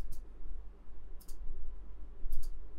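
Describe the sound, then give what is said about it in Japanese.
A computer mouse clicks on a button while a web page is being set up. Three faint, sharp clicks sound roughly a second apart, the last two doubled, over a steady low hum. “このボタン自体をクリックして、リンクですね。”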